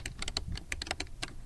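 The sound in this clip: Rapid typing on a computer keyboard: many crisp keystroke clicks in a quick, uneven rhythm, steady and fairly loud, with no voices.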